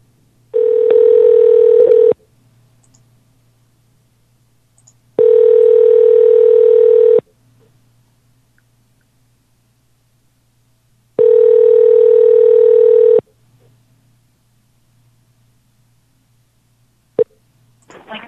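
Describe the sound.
Ringback tones of an outgoing telephone call: three steady, loud electronic tones, each lasting about two seconds and separated by silent gaps, followed by a brief click near the end.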